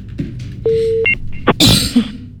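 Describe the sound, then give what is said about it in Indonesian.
A WhatsApp call being placed: a steady low electronic tone of about half a second, then a brief pair of higher beeps, followed by a loud rough noisy burst and some rustling. “Saya buka dulu WA call, bukan telepon, phone call-nya.”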